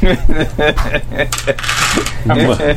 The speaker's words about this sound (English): Just roll them in batches.